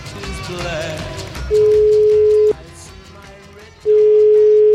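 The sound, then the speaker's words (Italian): A telephone line tone sounds while a call to Palermo is placed: two loud, steady, unbroken tones separated by a pause, heard over a dim background murmur. “Carminati questa volta chiama Palermo”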